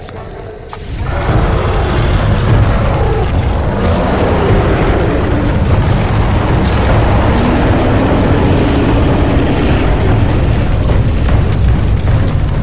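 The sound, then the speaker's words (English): Fire blazing up in dry grass beside a dry forest, a loud, dense roar that swells within the first second and then holds steady and unbroken to the end. “The fire leapt high to the heavens and the countryside was ablaze.”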